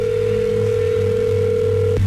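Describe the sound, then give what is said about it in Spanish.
Steady telephone tone on a line while a number is being dialed again: a constant, unbroken low hum of pitch that holds for about two seconds and then cuts off abruptly. “Vamos a marcarle de nuevo. No va a contestar ya.”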